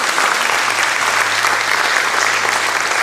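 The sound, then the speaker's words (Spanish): Loud, sustained applause from a gathered crowd after a Bible reading. The dense clapping stays steady and unbroken from start to finish. “Y aplauso a esa palabra de Dios.”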